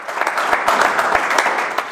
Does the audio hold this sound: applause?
yes